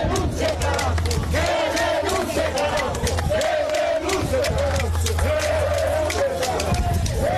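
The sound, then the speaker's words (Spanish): A protest march crowd descends Avenida de las Naciones Unidas in Bolivia, demanding the president's resignation, with a dense, loud, continuous roar of shouting and chanting voices throughout. “Estamos viendo cómo ya está descendiendo por la avenida de las Naciones Unidas la marcha para salvar Bolivia.”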